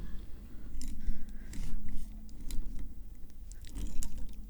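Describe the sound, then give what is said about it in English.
A bottle of Falanghina wine from Campania is opened in an office, with bursts of crinkly foil rustling, crunchy scrapes and small squeaks coming in uneven clusters. “I'm going to open this Falanghina now and let you know what it tastes like. The foil is pierced.”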